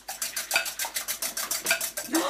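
A balloon whisk beats ingredients in a bowl with rapid, evenly spaced strokes. Each gives a bright swishing clink of wires against the bowl, repeating steadily throughout.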